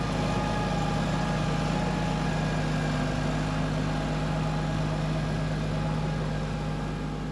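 Continuous low engine drone of a tractor driving over silage on a silo heap to compact it, a steady rumbling hum with a fixed pitch and no change in level.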